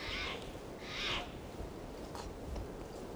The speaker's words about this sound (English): I think I hear the decoys calling.